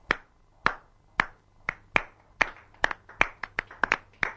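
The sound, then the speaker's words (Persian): Sharp, crisp hand claps celebrate a bride and groom at a wedding, each clap a distinct crack against near silence, starting widely spaced and then quickening into a faster, denser rhythm. “کف مرتب به افتخار عروس و داماد. کف مبارکه.”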